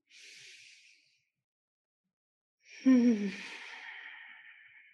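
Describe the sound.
A deep exhale during a guided breathing exercise: a long, breathy release with a slight voiced, sigh-like start that tapers off, preceded by a shorter, softer breath.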